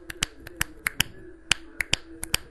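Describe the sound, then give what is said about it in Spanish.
Castanets click out many sharp, dry snaps in an uneven, fast rhythm, each one crisp and short, resembling finger snapping, with no voices. “Bueno, ese sonido hacen. Ese sonido hacen las castañuelas.”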